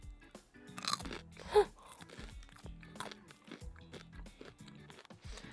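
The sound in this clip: Crunchy chewing of a mouthful of a rice side dish eaten on its own: many close, irregular crunches and mouth sounds, with one louder bite near the middle, fairly faint overall.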